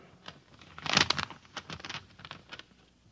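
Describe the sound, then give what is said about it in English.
A paper envelope is torn open: one loud crinkly rip near the start, then several softer rustles and crackles of paper. “I am convinced that the translation, which I have never seen before, will prove to you, gentlemen, my probity and my good faith in the corporation's behalf. And now I open the envelope.”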